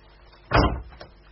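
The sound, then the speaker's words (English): A door is shut with a single short, solid thud, heard alone against quiet background. “He says we've got to close the door. Gary? I've got to shut the door.”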